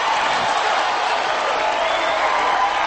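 A crowd cheers and applauds in a steady, loud wash of noise that holds evenly for about three seconds.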